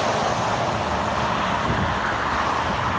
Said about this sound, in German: Das sind so die Geräusche, die wir den ganzen Tag hören, wenn wir auf dem Seitenstreifen der Autobahn fahren. So hört sich's an.